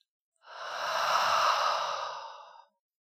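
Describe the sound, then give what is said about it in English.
A single deep breath out during a relaxation breathing exercise: a long, soft, airy exhale of about two seconds that swells and then fades, alone with no talk. “It may feel good to take deep breaths in and hold it a little bit, letting the oxygen circulate in that body.”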